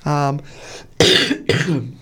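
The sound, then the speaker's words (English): Two sharp, harsh coughs burst out about half a second apart, loud and rasping, right after a brief voiced sound. “which I apologise for my cough, peoples.”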